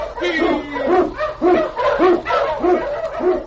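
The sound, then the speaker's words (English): An Eskimo husky lead dog barks while blazing a trail through storm and snow: a loud, rapid run of many sharp, evenly spaced barks. “King, the swiftest and strongest of Eskimo lead dogs, blazes the trail through storm and snow for Sergeant Preston as he meets the challenge of the Yukon.”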